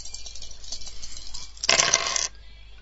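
Dice rattle as they are rolled in a computer dice game, one short clattering burst after a quiet stretch.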